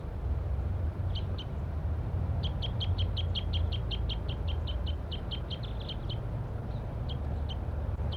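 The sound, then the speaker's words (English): A wild male bird perched in an oak tree gives many rapid, high, thin chirps in bursts, over a steady low rumble of background noise. “Wild bird. Wild bird.”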